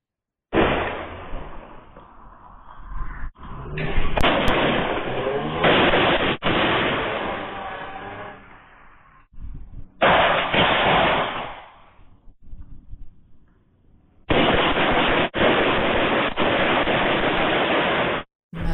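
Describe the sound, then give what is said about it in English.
Gunfire on a quiet Oakland city street, played from a video: loud, rough, muffled bursts of shots and noise in long stretches, separated by near-silent gaps. “a quiet Oakland street erupts in gunfire. The Oakland mayor may want to get back from Asia soon while she still has a city to return to. One person shot. We've got the video.”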